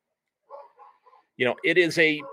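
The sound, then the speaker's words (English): A few dogs barking outside while being walked nearby; a few faint, soft yips come first, followed by a few louder, sharper barks in quick succession. “hopefully you don't hear my dogs barking in the background. They're in the other room. The door is closed, but evidently somebody else's dogs are out for a walk.”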